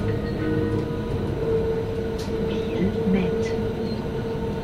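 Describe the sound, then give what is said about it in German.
A train arriving at a station gives a steady, loud rumble of wheels and carriages, with faint squealing tones rising briefly over the continuous rolling noise. “Wir kommen zu Biel an, Zugwechsel.”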